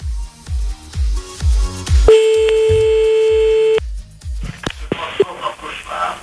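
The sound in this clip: A telephone ringback tone sounds while a caller rings someone back: one steady, mid-pitched beep lasting well over a second. A run of rhythmic low thumps comes before it, and scattered sounds follow.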